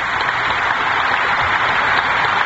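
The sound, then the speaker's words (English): Sustained applause fills the House chamber for a joint session as the President enters, with the Speaker and Vice President standing and clapping on the dais. Dense, even clapping from many hands holds steady throughout with no pauses. “Speaker Albert, and the Vice President are standing and applauding on the dais.”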